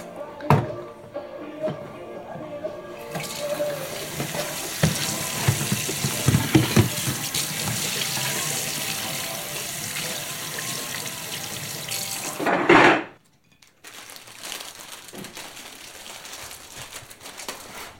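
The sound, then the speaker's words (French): A tap runs while coffee is being made. The steady water stream lasts about nine seconds after a few lighter clatters, swells into a brief louder gush, then cuts off, leaving faint quieter kitchen sounds. “Voilà, je vais juste préparer le café.”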